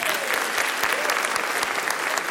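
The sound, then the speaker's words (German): Audience applause, a dense, steady wash of many hands clapping, loud and even throughout with no break. “Der ist Applaus.”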